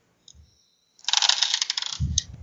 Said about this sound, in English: Why do I keep dropping dice?